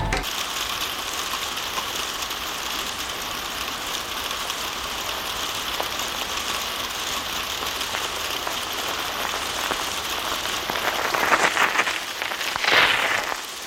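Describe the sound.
Bicycle wheels ratcheting as bikes are parked: a continuous dense clicking over a steady hiss, growing slightly louder and rougher toward the end.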